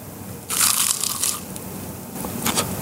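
Crunching as someone bites into salt-sprinkled food that is eaten bones and all. A loud, gritty crunch comes first, then a shorter crunch follows over a steady background hiss.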